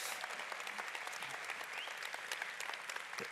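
An audience claps to welcome a guest, fairly soft but dense, steady applause from many hands that continues evenly throughout without voices.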